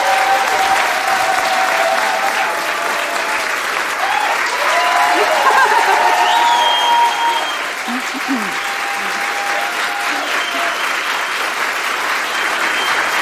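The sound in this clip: Studio audience applause in the Agnieszka Osiecka studio of Polish Radio Trójka: loud, dense clapping that keeps going steadily, with a voice heard over part of it.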